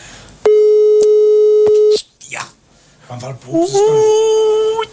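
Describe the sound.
A loud, steady telephone busy tone after the line lost coverage, heard as one long beep, followed by voices talking.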